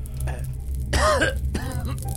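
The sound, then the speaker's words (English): Coughing from a man who cannot talk, his attempts at words coming out as a few rough, voiced, throat-clearing coughs over a steady low hum. “He can't really talk. It's like comes out as a cough.”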